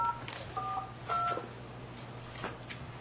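Telephone keypad tones as a number is dialed: three crisp dual-pitched beeps in quick succession, steady and clear over a low electrical hum.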